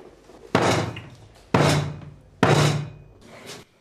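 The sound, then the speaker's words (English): Three heavy thuds of a head striking a table in a dressing room. Each is a dull, loud knock with a short decaying tail, spaced roughly a second apart, with no voices. “He thumps his head on the table.”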